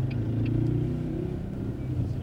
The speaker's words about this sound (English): Watch out for the cars.